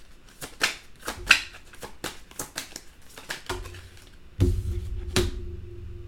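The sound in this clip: Tarot cards are shuffled and drawn, making many crisp, rapid snaps and flicks in an irregular rhythm, with a low hum underneath toward the end.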